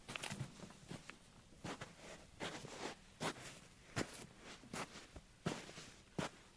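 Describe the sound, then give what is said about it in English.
Footsteps walk across foley surfaces at a London studio, such as heavier beach-type rock, sand and hard tarmac. The many irregular steps give crunchy, scuffing impacts of moderate loudness, with no voices heard. “And these surfaces, we have many, many surfaces. I'm going to walk around just to give you a little idea.”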